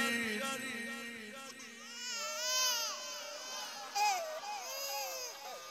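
A baby crying: a continuous run of wailing, wavering cries that rise and fall in pitch and stay fairly strong throughout.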